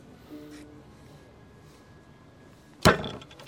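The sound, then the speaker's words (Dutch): A small Ice Tea Green bottle swung at an insect lands one loud, sudden thwack after nearly three seconds of quiet background hiss, then the sound fades quickly. “Wacht, ik ga kijken of ik hem kan doodslaan met mijn flesje Ice Tea Green.”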